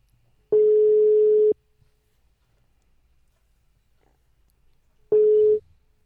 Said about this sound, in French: Pour une fois, je vais appeler au numéro masqué.